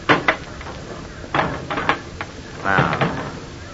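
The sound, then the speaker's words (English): Clicks, clunks and knocking scrapes as the cover of a large trunk is opened, a busy run of uneven mechanical sounds of varying loudness. “Well, take a look at this. Wait till I open the trunk cover.”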